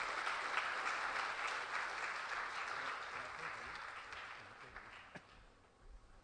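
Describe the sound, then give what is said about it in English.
Audience applause welcoming a guest, a soft, even wash of clapping that holds steady and then slowly fades away over about six seconds. “Can you please put your hand together to welcome Sydney?”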